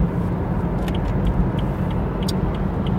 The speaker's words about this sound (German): So, jetzt fahren wir in 400 Metern nach St. Pölten ab und dann sollten wir in fünf Minuten da sein.